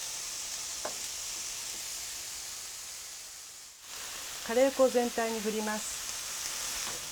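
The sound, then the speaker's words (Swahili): Onions and bell peppers fry in a pan with a steady, bright sizzle that runs throughout, and a brief tonal sound rises over the hiss past the midpoint. “Kaanga vitunguu na pilipili hoho hadi viwe angavu. Sasa unaweza kuongeza viambato vingine.”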